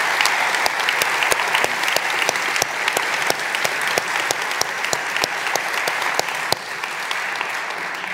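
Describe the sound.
A church audience applauds in welcome of a visiting guest pastor. The clapping is sustained and fairly even, with sharp individual claps cracking above the wash, and it eases off a little near the end.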